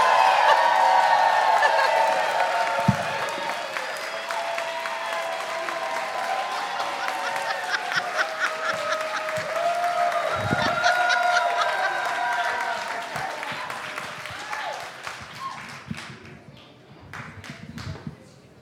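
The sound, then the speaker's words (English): Applause and cheering for a first-time comedian at a live show: steady crowd clapping with scattered whoops, holding level for most of the stretch before thinning and fading over the last few seconds. “Please give it up for Kirsten Mohan. Make some noise!”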